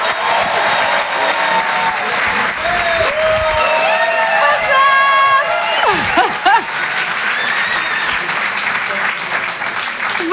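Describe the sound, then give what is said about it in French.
Applause from a comedy club audience, dense sustained clapping throughout with a brief spoken greeting. “Je vous demande de faire un maximum de bruit, s'il vous plaît”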